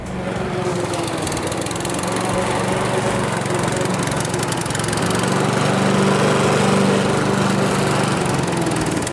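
Loud, unbroken engine drone of a mower preparing a runway, a steady rough roar that holds without pause throughout.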